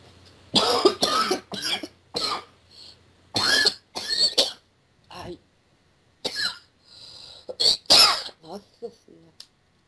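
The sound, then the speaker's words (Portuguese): Harsh, loud coughing from a person with a bad flu, coming in many irregular bursts separated by short pauses, with some throat clearing. “Você percebeu que você tava com uma tosse forte antes de incorporar e agora volta, assim.”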